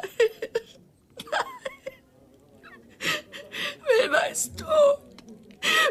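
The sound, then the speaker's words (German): A woman cries in uneven bursts of whimpering sobs and gasping breaths, with a few high, wavering wails between quieter pauses. “Hör bitte auf zu weinen.”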